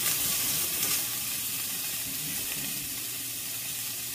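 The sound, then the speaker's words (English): Garlic sizzles in a pan while being stirred almost constantly. A steady hissing fry is slightly louder at first, then settles into an even, continuous sizzle. “Okay, and we're basically going to do the same sort of thing, stirring pretty constantly here for about 30 seconds to a minute. There. Just sort of getting these a little bit softer, a little bit more cooked. You can smell that garlic sort of like wafting up, it's really nice.”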